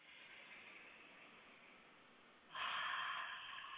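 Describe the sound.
Soft, airy breathing in and out during a guided breathing exercise, a faint steady hiss that swells suddenly louder partway through and stays loud to the end, with no talking.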